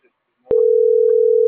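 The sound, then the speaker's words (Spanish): A steady electronic beep on a phone call starts abruptly after a brief faint sound, then holds one unchanging mid pitch until the end. “Permítame, es que es, con el beep no escucho bien. Con el beep de la llamada no escucho bien.”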